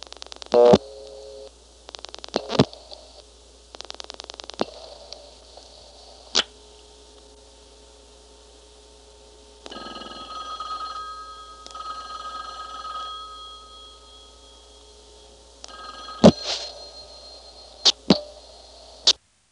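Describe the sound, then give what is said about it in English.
A number is dialed on a party-line telephone exchange circuit, then the line rings. A few bursts of rapid clicking pulses come first, followed by a steady buzzing ring tone and later some sharp clicks. “I'm going to dial 759.”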